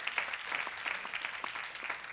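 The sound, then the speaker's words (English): Audience applause welcoming a speaker at a women's church ministry gathering, a dense, even patter of many hands clapping, fairly faint and steady throughout with no voices over it. “Come on, give her a big round welcome.”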